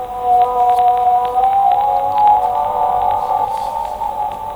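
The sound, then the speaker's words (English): A humpback whale, a baleen whale species, gives a long, wavering, moaning tonal call. It holds steady and fairly loud over a hissy background, with faint clicks scattered through it. “That is the sound of the humpback whale. It's a species of baleen whale, which means they are filter feeders.”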